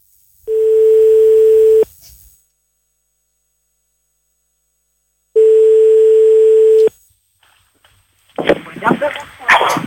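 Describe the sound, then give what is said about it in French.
A telephone line tone after dialing a number: two long, steady, mid-pitched tones separated by several seconds of silence, followed by a voice speaking. “Hey Baby Allo, tu composes le numéro, on y va.”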